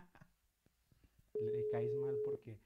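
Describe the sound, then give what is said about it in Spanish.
A single steady ringback tone sounds on a telephone call that goes unanswered, lasting about a second, with voices talking around it. “No, no contesta, estamos esperando.”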